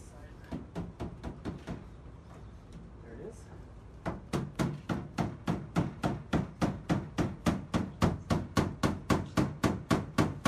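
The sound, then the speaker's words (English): Hammer-like blows crack open a time capsule: a few sharp knocks, then a louder steady run of many evenly spaced strikes. “Take a listen as we crack open that capsule. There we go.”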